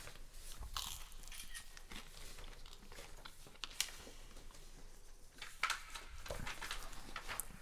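Crunchy biting and chewing of a salty bread snack, with many crisp, dry crunches and softer mastication sounds in an irregular rhythm, fairly faint and without talk.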